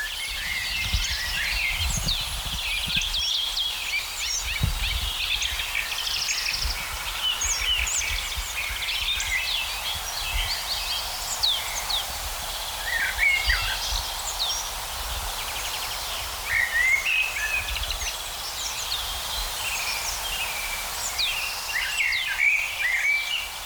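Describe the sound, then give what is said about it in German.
A blackbird singing among many other bird chirps and calls, the short phrases continuing throughout over a steady background hiss and low rumble, with no voices. “Natürlich eine der Hauptdarstellerinnen, die Amsel,”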